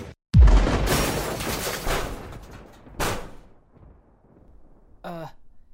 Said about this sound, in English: Oh man, is that a missile?